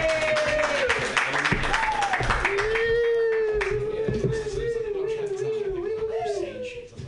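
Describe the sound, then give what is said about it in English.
A stand-up comedy audience claps to welcome the next comedian to the stage. The moderate, continuous applause runs under a speaking voice throughout. “Put your hands together for your next comedian, Jonah Pollock.”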